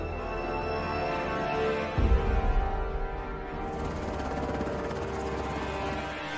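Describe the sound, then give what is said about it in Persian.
Helicopter near a church tower: a steady, droning rotor whine that holds throughout, with a brief low thumping swell partway through. “گرفتیمشون تو برج کلیسا منتظر هلیکوپترشونه”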